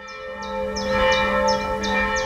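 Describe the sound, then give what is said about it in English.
A single church bell at a high Gothic church in Magdeburg, Germany, peals for evening prayers: a monotone ring with regular repeated strikes over a sustained humming resonance, steady and moderately loud. “Here in the eastern city of Magdeburg, the monotone peal of a single church bell calls a modest flock of parishioners to evening prayers”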